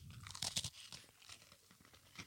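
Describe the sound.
Chewing a cookie: a few sharp crunches near the start give way to softer, quieter chewing and munching.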